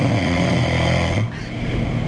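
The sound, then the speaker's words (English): A person snores in a playback recording, a continuous low, rasping drone with rich buzzing overtones that shifts slightly partway through. “audio taped me snoring. Do we have the audio?”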